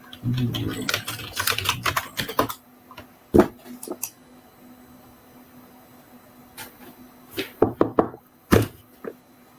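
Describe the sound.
Fingers type a message on a computer keyboard: a dense flurry of clicking keystrokes, a few scattered single taps after a pause, then another short burst of typing near the end.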